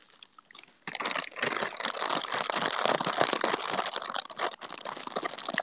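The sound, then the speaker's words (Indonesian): Crinkling of seaweed (nori) snack packaging being opened for ASMR: after a quiet start, loud, dense crackling and rustling of plastic wrapper begins and continues without pause, with irregular sharp crunches throughout. “bentuk perwujudan audioisasi dari bungkus kemasan rumput laut”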